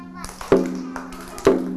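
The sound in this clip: Two sharp taps about a second apart as a teacher knocks out a slow rhythm for a children's movement activity, each tap ringing briefly over a low sustained tone.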